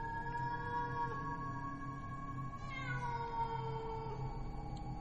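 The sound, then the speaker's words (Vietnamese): A female cat in heat yowls at night in a graveyard: one long, drawn-out, wailing cry that holds steady with a brief wavering dip partway through. It is faint and there is no talk. “Đâu đây trong nghĩa địa, chắc là có con mèo cái động đực đi hoang, cứ kêu đến não cả lòng.”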